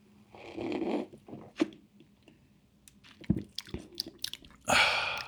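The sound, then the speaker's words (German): Someone takes a big sip of cloudy, golden sparkling beer: a soft slurping pull, then a run of quiet gulping and swallowing clicks, followed by a short, breathy burst at the end. “Und es ist ein bisschen trüber, aber auch sehr, sehr goldgelb. Und ich finde, es riecht fantastisch, fantastisch, fantastisch gut. Ich nehme jetzt einen großen Schluck.”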